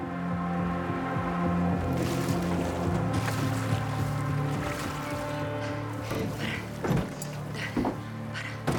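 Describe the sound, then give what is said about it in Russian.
A boat moves along a river past rocky shores, a steady low droning hum running throughout with a few brief water splashes toward the end. “Лодка плывет мимо скалистых берегов.”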